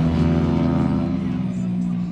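A motorcycle runs around a race track on warmed-up tyres, its engine giving a loud, sustained drone with a steady harmonic tone throughout.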